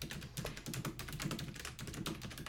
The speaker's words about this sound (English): And she types that fast.